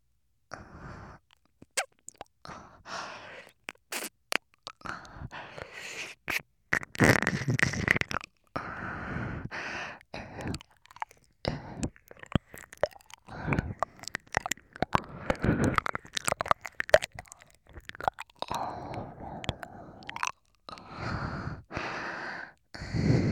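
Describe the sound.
Ear licking in a Japanese ASMR roleplay: wet, close smacking, slurping and breathy mouth sounds in many irregular bursts separated by short silences, with no talk.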